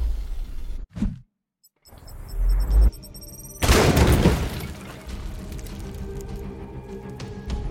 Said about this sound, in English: Toss a grenade right here.